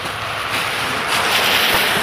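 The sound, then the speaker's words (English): Meltwater runs everywhere outdoors, a steady, loud rushing wash that holds evenly throughout with no voices. “There's water running everywhere now.”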